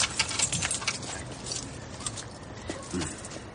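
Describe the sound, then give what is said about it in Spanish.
Jingle of car keys being pulled from a car's ignition, a brief metallic rattle in a dense, noisy scene. “Quite las llaves, por favor.”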